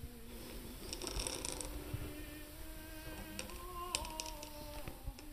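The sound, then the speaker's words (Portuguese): A metal-nib dip pen scratches across paper or card while a name is written, producing faint, intermittent, raspy scrapes and small ticks that come in irregular bursts over a quiet background. “São característico de uma pena a rasgar a superfície de papel ou de cartolina.”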